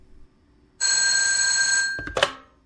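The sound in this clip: A telephone bell rings in one continuous, bright, shrill burst of a little over a second as an office call is put through, then cuts off into a brief knock and fading rattle.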